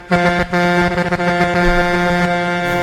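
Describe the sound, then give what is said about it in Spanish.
An air horn blasts for truck drivers, a short loud burst cut off after a fraction of a second, then a long sustained blare of the same rich harmonic tone held to the end. “No has tocado la bocina para los camioneros hoy.”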